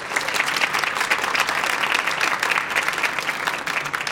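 Audience applause welcomes a panel, a dense, steady wash of many hands clapping at an even loudness throughout.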